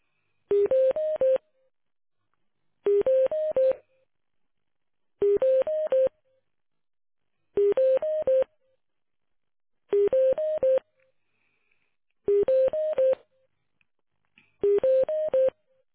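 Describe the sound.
Telephone tones during a call transfer: seven identical short bursts of stepped electronic beeps, repeating at a regular pace of about every two seconds with silence between them, moderately quiet.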